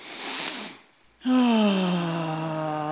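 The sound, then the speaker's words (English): A worship gathering breathes in deeply together in one broad, airy inhale lasting under a second. A brief hush follows, then a sustained tone that slowly settles lower. “Let's breathe that in.”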